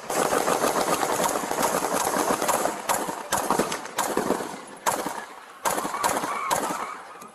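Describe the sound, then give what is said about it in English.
Gunfire from an AK-47 rifle: many loud, dense cracks run together in rapid bursts, broken by a few short pauses toward the end. “Central, we got a man with an AK-47. He's shooting at us.”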